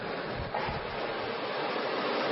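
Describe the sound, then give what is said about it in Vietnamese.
A round of applause from an audience congratulating the people of Nepal: dense, steady clapping that holds at an even level throughout, with no voices. “có thể chúng ta có thể cho một tràng pháo tay để chúc mừng nhân dân Nepal”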